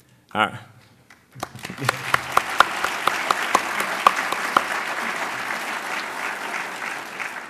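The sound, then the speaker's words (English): Applause for guests at the Carter Center's 25th anniversary event, following a brief voice. It starts with scattered sharp claps and swells into dense, steady clapping from the audience that holds to the end. “So we'll give another round of applause for all of our guests here.”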